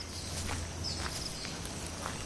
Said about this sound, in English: Out in those jungles of Africa, we see an American woman hiking through the thick underbrush.